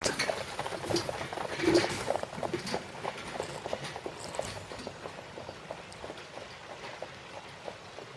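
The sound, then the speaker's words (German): Hooves of a horse pulling a carriage clip-clop steadily as the carriage moves off, with many soft, regular hoof strikes over a faint background hiss. “Haben wir das auch gehört, alles? Du hast gehört, dass die Kutsche wieder weiterreitet.”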